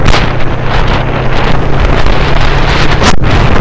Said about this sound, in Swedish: Motorcykeln jag åker på är en Yamaha V-Max från 09.